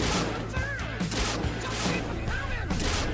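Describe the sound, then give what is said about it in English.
Video-game gunfire crackles in loud, dense bursts that repeat every fraction of a second over a steady low drone. “It's a gun, Valcor. You point it like this and you shoot the fuckers.”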